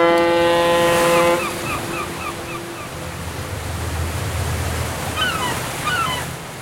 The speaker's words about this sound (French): la corne de brume d'un navire de croisière retentit dans le port de La Havane